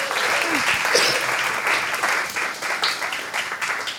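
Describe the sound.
An audience applauds to welcome a troupe of traveling improv actors, with dense, steady clapping that stays loud and even for the whole stretch.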